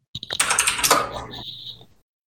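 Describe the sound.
Rapid typing on a computer keyboard: a dense, roughly one-second run of clicking keystrokes with a clattering, uneven rhythm.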